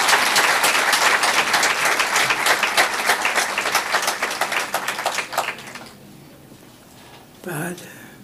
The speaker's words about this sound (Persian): برای خودتونم یه دست قوی تر بزنید.